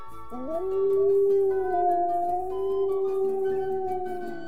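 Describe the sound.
A wolf howls in one long, loud, tonal call that swoops upward at the start, then holds a steady pitch for several seconds with faint overtones.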